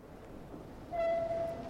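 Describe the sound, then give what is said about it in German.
A train rumbling at low level, then a steady horn tone that enters partway through and holds to the end. “Musste jetzt die Eisenbahn benutzen.”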